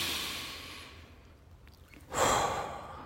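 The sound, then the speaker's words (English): A deep, slow breath taken as a calming exercise: soft, airy breathing that swells into a louder, sigh-like exhale, heard alone without talk. “Keep reminding yourself to take longer and deeper breaths. Let me do one real quick right now. Do one with me.”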